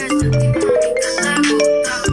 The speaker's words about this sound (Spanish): Es el móvil.